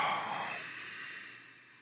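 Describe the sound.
A single long exhale by a person doing a breathing exercise during a guided workout, starting as a soft breathy rush and fading away over under two seconds, with no talking.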